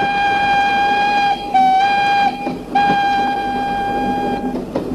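A steam locomotive on a winding line sounds a steady, high whistle-like tone. It holds loud and even, broken by a few short gaps before resuming.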